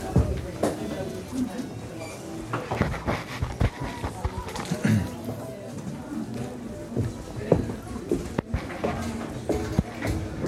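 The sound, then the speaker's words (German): Footsteps stomp up a staircase in a series of heavy, irregular thuds, and people talk over them throughout. “da stapfe ich mal hoch.”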